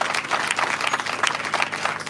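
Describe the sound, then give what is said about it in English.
Applause from a church audience, many hands clapping together in a dense, steady patter that stays loud and even throughout with no pauses. “can we clap our hands together for your men of God? And for your first lady.”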